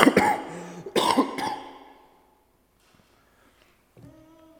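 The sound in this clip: A few harsh coughs come from a scratchy, irritated throat in quick bursts. Quiet follows, then a voice begins faintly near the end.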